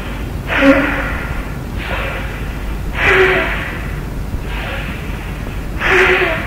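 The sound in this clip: Forceful breaths pushed through the nose in a yoga breathing exercise: five strong, rushing nasal blasts in a steady, regular rhythm, each a loud burst of breathy noise separated by brief quieter gaps.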